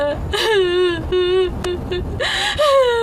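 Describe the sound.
Wailing and sobbing from a grieving father crying over a family's cruel death: a few drawn-out, quavering cries with falling pitch, separated by short gasping breaths.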